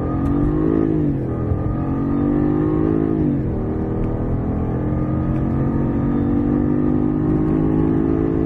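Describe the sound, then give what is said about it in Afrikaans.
A Jaguar XJR575 engine at full throttle, accelerating on a highway: a loud, steady, low harmonic drone that dips briefly twice early on, then climbs gradually and evenly to the end. “Toe ek binne die geelstreep sonder 'n voertuig in sig voluit wegtrek op die snelweg, was ek binne 10 sekondes by 160. So het dit geklink.”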